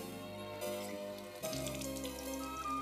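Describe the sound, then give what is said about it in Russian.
Water runs from a bathroom tap over wet hands, a steady hiss and splash that keeps going, with louder surges as the hands move under the stream. “Идет в ванную, открывает кран, смачивает руки, сбрызгивает лишнюю воду.”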